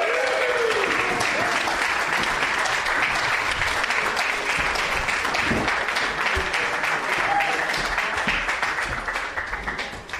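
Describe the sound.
Warm applause from a festival crowd welcoming a speaker who opens the weekend: dense, sustained clapping at steady loudness that tapers off near the end.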